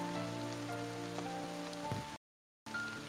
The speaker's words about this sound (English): I'm not sure about the continental weather patterns, but it's less likely that the rain extends all the way to Hollymead, so as soon as we get the chance, we should make a run for it.